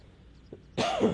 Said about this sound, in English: Excuse me. Had to cough there.